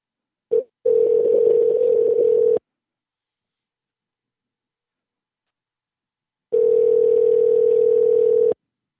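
A phone line rings before going to voicemail: a short blip, then two long, steady electronic ringback tones at a constant pitch, separated by a few seconds of silence.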